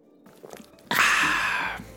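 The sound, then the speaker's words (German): Slurping of the last sip of a drink: a soft, sustained airy hiss that swells suddenly and holds for almost a second before easing off, preceded by faint scattered clicks. “So, letzter Schluck.”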